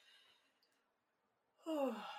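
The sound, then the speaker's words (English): A single deep breath taken during a relaxation exercise: after near silence, a breathy, sigh-like exhale swells up loudly and carries to the end. “I just took one deep breath.”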